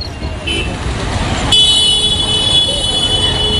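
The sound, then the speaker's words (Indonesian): Heavy traffic jam with cars and horns, a dense continuous roar of engines and road noise, joined midway by a sustained high honk that holds to the end. “parah banget nih macetnya”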